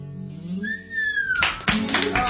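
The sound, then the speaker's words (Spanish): Audience applause after a song at a live show in Barcelona, breaking out loudly partway through after a quieter tonal opening and holding as dense, ragged clapping to the end. “Gracias. Gracias por esa hemorragia inmensa de aplausos. Muchas gracias.”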